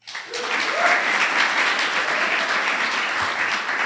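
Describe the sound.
Audience applause welcoming a guest onto a comedy talk show, a dense, steady wash of clapping that swells quickly and holds evenly for several seconds.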